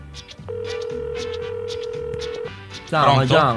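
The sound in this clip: A telephone ringing tone for an incoming call holds a steady single note for about two seconds while people talk over it, then a louder voice follows.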